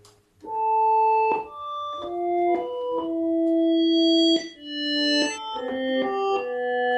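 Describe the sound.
Synthesized tones from a simple two-oscillator software synth: a slow sequence of sustained, harmonically rich notes at changing pitches, each entering with a soft attack and ringing on, with no voices.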